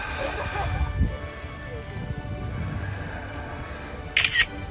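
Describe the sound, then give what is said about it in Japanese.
A camera shutter clicks twice in quick succession near the end while a reddening sky is photographed in cold weather. Before the clicks, faint steady background noise and low rumbling are heard. “あ、写真撮ってるわ、音入っちゃって、カシャって音入ります。”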